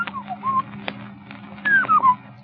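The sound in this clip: Birdsong: a few thin whistled notes, some sliding downward, rise above a steady low hum.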